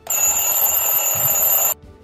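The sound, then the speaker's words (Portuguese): An alarm clock rings with a steady, shrill electronic tone for nearly two seconds, then cuts off abruptly. “toca o despertador.”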